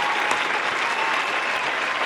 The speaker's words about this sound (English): I'm gonna give you a round of applause.